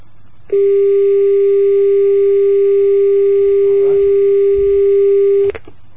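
A telephone line tone during a failed call in a Persian-language call-in: a loud, steady single-pitched tone that starts abruptly, holds unchanged for about five seconds, then stops sharply.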